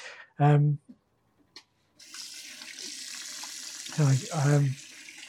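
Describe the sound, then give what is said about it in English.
Water runs from a tap at a campground's shared wash-up sink while hands are washed. The steady hissing flow starts after a short burst of speech and continues under more talk at the end. “So there's like where you wash up, just because I was washing my hands.”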